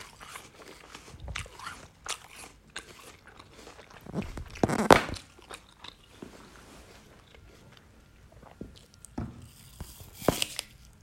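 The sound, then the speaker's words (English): Crisp crunching as a person bites into and chews an apple, with a few loud bites standing out among quieter, wet chewing sounds. “Yeah, but I want to finish my apple.”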